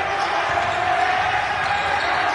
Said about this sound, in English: The sound you hear, the noise coming from across the court, is the Quincy bench.